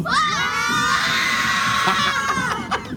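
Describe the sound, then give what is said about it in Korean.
Children shouting and cheering together, a group of young elementary school students on a KBS studio tour, a loud and continuous chorus of high, excited voices that holds for most of the three seconds before easing off. “진짜 오리지널 생기운 한번 받아보시죠. 네. 마이크 열어주시면 얘들아 소리 질러!”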